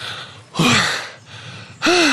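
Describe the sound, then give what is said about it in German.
Panting and wheezing after running, with two loud, gasping breaths carrying a whistling tone and quieter breathing between them. “jetzt fängt die Lunge an zu pfeifen”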